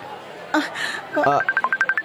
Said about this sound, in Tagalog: Ang cellphone mo.